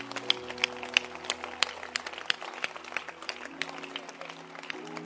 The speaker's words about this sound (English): Clap your hands.